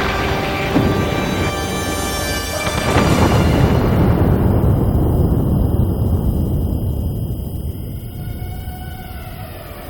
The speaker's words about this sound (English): For him, destroying Arafat was the main goal. A missile directly hits his office.